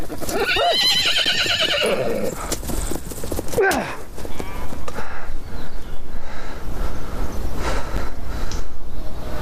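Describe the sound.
A horse gives a loud, shrill whinny with a quavering, harmonic tone at the start, followed by a brief sharp cry and then rougher hoof clops and rustling noise through the rest.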